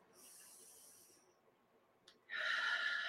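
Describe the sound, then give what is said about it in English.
A deep breath taken during a relaxation exercise: a soft hissing breath, a short pause, then a louder rushing breath near the end, all fairly quiet. “All right, so take a deep breath and let it out. Deep breath in.”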